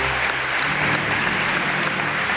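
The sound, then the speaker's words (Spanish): A studio audience applauds with dense, steady clapping that stays loud and even throughout, with no voices over it. “El aplauso está un poco inducido, pero me parece también genuino al mismo tiempo.”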